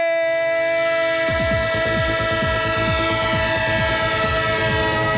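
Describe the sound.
A train sound effect: a sustained horn blares throughout, and after about a second a loud, steady rhythmic clacking of wheels on rails joins in and continues.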